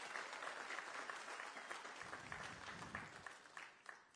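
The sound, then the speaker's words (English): A church audience applauds the worship team with steady, dense clapping that holds an even level throughout and tapers slightly at the end. “Let's give worship team another big hand.”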